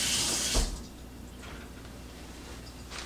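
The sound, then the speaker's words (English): Tap water runs and splashes over a removable part being rinsed during cleaning: a loud, bright hiss for about half a second that cuts off abruptly, leaving a faint, steady background hush. “Wash this off. I'll just wash it off real fast so you can see the process.”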